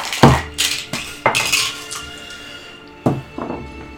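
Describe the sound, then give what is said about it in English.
Dice clatter across a table during a tabletop role-playing game, making sharp hard clacks and short rattles in two bursts separated by a brief lull. “Roll an insight. I have my own dice.”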